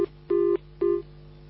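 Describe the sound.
Telephone ringing for an incoming call: a loud, steady electronic tone in short bursts, with a brief blip followed by two clear pulses over a low constant hum.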